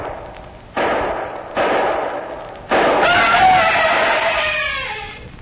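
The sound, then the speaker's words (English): Three gunshots are fired at an imagined blue albatross. Each is a sudden loud blast that does not fade before the next, and the third is followed by a long, sustained roar that slowly dies away. “But I can shoot the blue albatross. That's what I'll do. I'll kill the blue albatross. Then she's got to go away. The man is completely insane, sir. Shall I... No, wait, Mr. Simmons. Wait till he empties the gun.”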